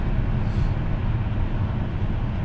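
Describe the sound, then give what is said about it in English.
A gray van drives by on a Friday afternoon, heard as a steady wash of engine and road noise with no clear rise or fall. “It's definitely a Chomo van just drove by, a gray one.”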